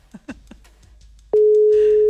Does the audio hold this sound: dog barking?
no

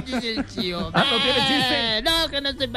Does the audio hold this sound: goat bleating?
yes

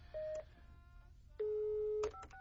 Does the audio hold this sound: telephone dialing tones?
yes

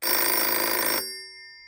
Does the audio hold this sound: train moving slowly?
no

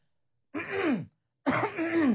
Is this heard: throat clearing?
yes

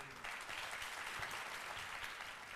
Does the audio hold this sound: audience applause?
yes

